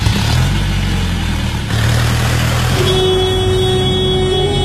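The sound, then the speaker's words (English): A car is driven fast and recklessly, its engine roaring in a steady, loud drone. A sustained horn tone sounds through the latter half. “You said I should put my foot down! Yeah, but I didn't mean drive like a maniac! Watch where you're going!”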